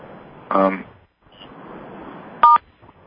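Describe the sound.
Keypad tones from muting callers on a conference call: two short, loud electronic tone bursts about two seconds apart over a low, noisy background.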